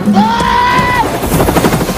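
A helicopter whose loud, steady rotor roar carries a rapid rhythmic chop that grows more distinct toward the end.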